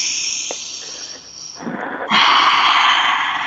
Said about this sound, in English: let's just take a moment and breathe.